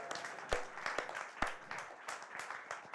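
A crowd claps and cheers for Mala at a live event, a faint, steady wash of applause punctuated by a few sharper, louder claps.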